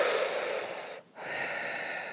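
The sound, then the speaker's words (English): A deep breath drawn close to the microphone: two long, airy breath sounds split by a brief pause, fairly loud and with no talk. “Everybody take a breath with me.”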